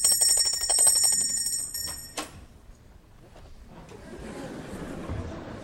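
A small hand bell rings to summon a chambermaid in a stage comedy, a bright, sustained metallic ringing for about two seconds that stops abruptly and gives way to faint rustling.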